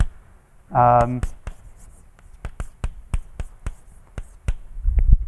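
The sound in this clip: Writing on a board gives many short, crisp tapping strokes in an uneven rhythm, with a brief voiced sound near the start.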